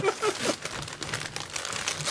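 Gift wrapping paper crinkles and rustles as holiday presents are wrapped, a dense, continuous papery crackle at fairly even loudness throughout, with no clear pauses.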